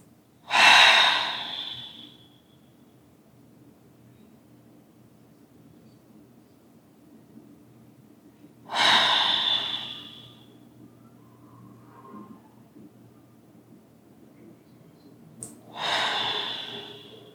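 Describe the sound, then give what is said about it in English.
Three slow, deep cleansing breaths, each a loud, airy rush of a second or so, separated by long quiet pauses, with no talk in between. “I just wanted to do 3 deep cleansing breaths. You can do it at your own pace if you want to join.”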